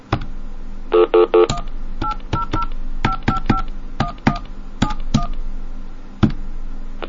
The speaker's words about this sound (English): Okay, let's see if a DTMF tone works. Oh, it does cut it off.